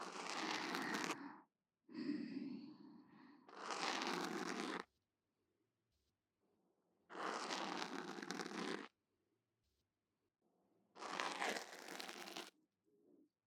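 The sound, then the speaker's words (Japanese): An ear pick cleaning an ear makes loud, scratchy, crinkling scrapes close up. They come in several separate bursts of a second or more, with near silence between them. “どう？初めて耳かきしたにしてはうまいと思うんだけど。”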